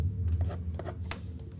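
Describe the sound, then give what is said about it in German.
Pen scratching as notes are written down on paper, a few faint, short scratchy strokes over a steady low hum, with no talking. “Okay, ich schreibe mir das ganz auf.”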